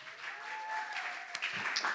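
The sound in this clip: Audience applause welcoming a pastor onstage at a winter conference: dense, steady clapping of a crowd at moderate, fairly soft volume throughout.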